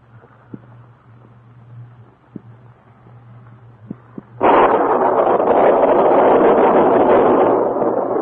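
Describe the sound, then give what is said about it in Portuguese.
Thunderstorm with a thunder crack: after a quiet stretch with a few faint clicks, a sudden loud crash bursts into a dense, roaring rumble that stays heavy and sustained to the end. “o estalar de uma trovoada pôs o Barata em pé de um salto. Mas não é possível. Uma tempestade.”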